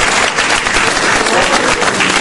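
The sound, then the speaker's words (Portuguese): Dense, loud applause from an audience at a church service, a continuous wash of clapping hands that stays steady throughout without a break. “E agora vocês vão dar aquela melhor salva de palmas que vocês não deram até hoje ainda.”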